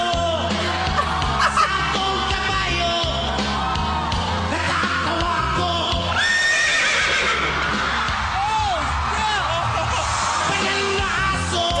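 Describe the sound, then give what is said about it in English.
A man on a talent show imitates a horse's neigh with his voice: loud, rough, quavering whinnying that carries on without a break for the whole stretch. “that's actually him making that horse noise”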